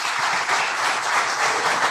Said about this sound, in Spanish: Raquel Peña, para quien pido un fortísimo aplauso.